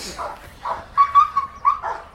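A gendarmerie working dog that is very possessive of an object whimpers in a series of short, high, thin whines, with a few muffled sounds between them.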